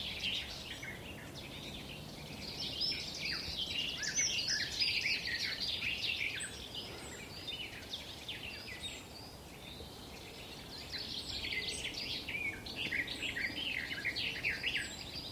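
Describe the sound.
Throaty, rambling birdsong in a valley, with many quick chirps and warbled phrases running continuously at a moderate level over a soft, steady background.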